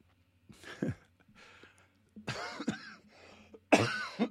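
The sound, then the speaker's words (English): Someone coughs in several uneven bursts mixed with throat clearing, with quiet gaps between them. The final burst is the loudest. “Getting emotional and coughing at the same time doesn't go well.”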